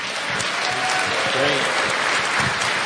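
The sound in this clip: An audience at a church event with a children's choir gives steady, dense applause throughout. A voice is briefly heard over the clapping.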